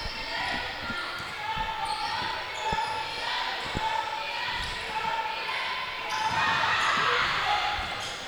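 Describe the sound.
A basketball dribbled during a women's game with George Ranch in possession: steady, rhythmic thumps of the ball on the court under an announcer's commentary and crowd murmur.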